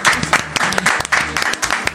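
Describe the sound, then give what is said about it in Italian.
Scattered clapping from a few people in a radio station newsroom, uneven bursts of hand claps mixed with voices talking over them, rising and dipping across the short stretch. “Un bel applauso, grazie. Un applauso in redazione.”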